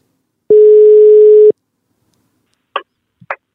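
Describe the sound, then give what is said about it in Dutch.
A telephone dial tone sounds while someone is being called: a single steady, loud one-second hum, then silence broken by a few short, sharp clicks. “We gaan hem even bellen.”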